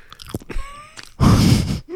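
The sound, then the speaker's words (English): Loud, crunchy chewing and biting of food during a mukbang eating session. A dense burst of wet mastication fills the second half, after a few quieter mouth sounds and breaths. “You good over there? I'm just giving the mukbang.”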